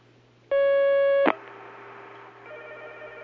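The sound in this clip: Telephone line tone as a call connects: a steady, buzzy harmonic tone holds for under a second, is cut off by a sharp click, and gives way to faint hissing line noise over a constant low hum.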